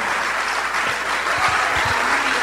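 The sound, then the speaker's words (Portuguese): A church audience applauds during a worship service, a steady wash of many clapping hands with a few low thuds beneath it. “Vamos aplaudir o Senhor Jesus por cada vida que está chegando.”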